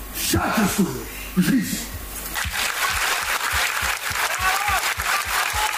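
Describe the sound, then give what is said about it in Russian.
Long, stormy applause in a concert hall. A voice is heard at the start, then sustained clapping takes over, driven by a steady, evenly spaced beat of low thumps. “Ну вот вы слышите аплодисменты, они в зале были очень действительно долгие, бурные”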